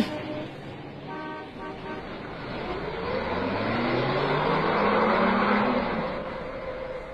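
A car pulls away once a blocked road clears. Its engine noise swells steadily and then eases slightly, and a brief horn-like toot sounds early on.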